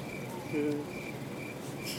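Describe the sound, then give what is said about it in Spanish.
Cricket chirping sound effect played from a computer: high, evenly spaced chirp bursts repeating in a steady rhythm over a soft hiss. “qué silencio tan incómodo. Ya tengo los grillos en la compu, no te apures.”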